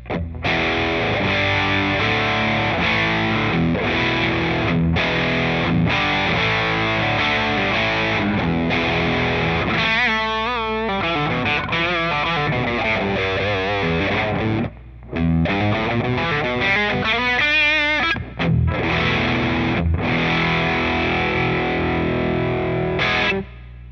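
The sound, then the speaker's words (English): A simple hard-clipping distortion circuit, with 1N4148 diodes clipping to ground, produces buzzy, heavily saturated playing. It runs on continuously and loudly, broken only by a couple of brief gaps, and swooping, bending notes stand out in the middle. “It's a very simple circuit that I came up with, pretty much just for this test. So, okay, here we go. Hard clipping to ground.”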